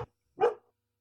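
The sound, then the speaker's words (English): One sharp dog bark sounds in the background. It is a single short, loud burst after a brief clipped noise at the very start, followed by silence. “That's my dog in the background.”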